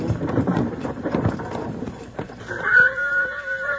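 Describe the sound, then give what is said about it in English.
A horse neighs in an old-time radio western, a second horse somewhere up in the rocks ahead; muffled low thuds and voices come first, then a long, high whinny carries through the latter half. “Bill wants to listen, and you start bawling like a branded calf. Both of them have spotted something, Jingles. It's another horse somewhere. Sounds like it's up in those rocks ahead of us.”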